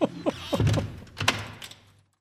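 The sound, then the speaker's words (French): A door being shut, a couple of dull thuds and a short rattle of the latch, fairly loud and alone, with a brief scraping sound before it. “Il ouvre la serrure et disparaît dans un éclat de rire et referme la porte.”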